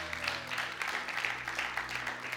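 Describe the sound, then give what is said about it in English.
Faint applause from a church audience, a soft continuous patter of many hands with a low steady hum underneath. “Let's give him a round of applause, can we?”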